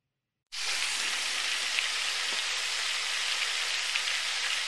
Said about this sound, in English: And are you ready to make sure the fryer is nice and crispy?